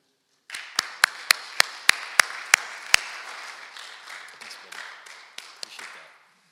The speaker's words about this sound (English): So if you guys would just put your hands together, welcome our speaker.